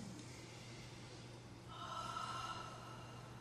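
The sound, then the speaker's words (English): A group takes a deep breath together during a holistic nursing session. The soft, breathy inhale is faint throughout, swells midway and then eases off. “Then let's share another breath. We need practice.”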